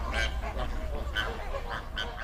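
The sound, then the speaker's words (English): Flamingos call at an alkaline soda lake in Kenya, many nasal, goose-like honks overlapping in an irregular stream over a steady low background rumble. “Lake Nakuru, Lake Bogoria, and Lake Magadi are the primary habitats for flamingos.”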